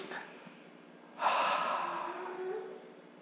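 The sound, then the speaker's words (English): People drawing a big breath in together during a relaxation exercise: an abrupt, breathy rush of air that holds steady for about two seconds, then slowly eases off. “Let's just take a big breath in and a big sigh of relief. And again, I think we need to do it again. So we're really relaxed, right? Big breath in.”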